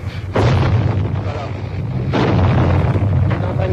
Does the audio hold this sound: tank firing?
yes